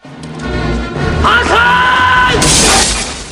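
Window glass shatters in one bright, crashing burst near the end, after a dense, rumbling mix of other sounds.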